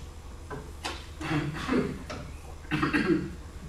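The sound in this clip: Phlegmy coughing from the throat: a few rough, wet bursts with throaty clearing, fairly quiet and spaced out over a few seconds, with no words spoken.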